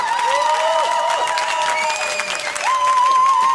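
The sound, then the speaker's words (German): A Peter Maffay concert audience, with guests from Saxony, roars and applauds in a loud, sustained wall of cheering, with a long, high held tone gliding over the steady crowd noise. “Ich glaube, hier sind die Gäste aus Sachsen, die Spezialgäste, die gerade brüllen.”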